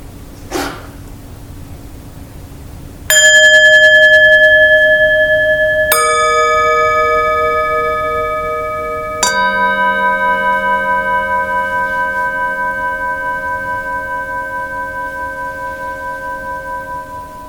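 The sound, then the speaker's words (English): Meditation bells are struck three times, a few seconds apart, during a guided meditation. Each strike rings out clearly and loudly, then fades in a long, shimmering decay. The third has a deeper undertone, and a faint click comes before the first. “sound of bells,”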